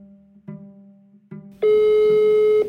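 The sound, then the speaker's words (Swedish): A telephone tone as a call is placed: a low hum with faint clicks, then a loud, steady beep that holds for about a second before cutting off. “Nu är det bara för Johnny att börja ringa.”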